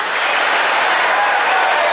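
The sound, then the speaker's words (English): Democrats in the audience stand and applaud a line in a speech about a sales tax rebate. The clapping is dense and continuous at a steady level and sounds somewhat dull and muffled. “The Democrats stood up and applauded that line.”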